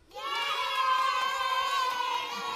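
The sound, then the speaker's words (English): A sound effect of children cheering rises quickly into a sustained, bright chorus of young voices shouting together and holds steady before easing slightly at the end. “Okay, so they're not actual children, guys. It's just a sound effect.”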